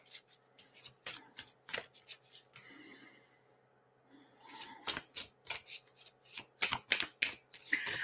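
Tarot cards being shuffled by hand during a reading, with many quick, crisp riffling bursts in two fast runs separated by a quieter pause.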